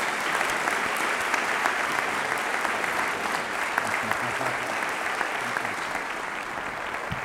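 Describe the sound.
An audience applauds to welcome a guest speaker to a seminary chapel service, a steady, dense clapping that continues for the full stretch without any voice rising above it.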